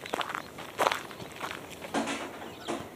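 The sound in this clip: Faint footsteps of an approaching tramp, a steady series of soft scuffing steps at an unhurried walking pace, alone without voices.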